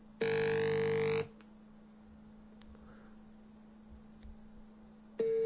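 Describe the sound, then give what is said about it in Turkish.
A phone gives a brief glitchy chirp: a loud, buzzy, harmonic tone lasting about a second, then a quiet hum, and another buzzy burst starts right at the end. “Oğlum niye yaptı telefon böyle? Bir cıdırtı geldi anlık. Telefon osurdu gibi bir şey oldu.”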